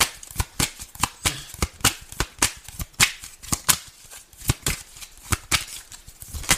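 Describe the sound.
Tarot cards being shuffled by hand: many sharp, papery riffling snaps in a quick, fairly steady rhythm, each a bright crisp burst, continuing without a break and with no talking.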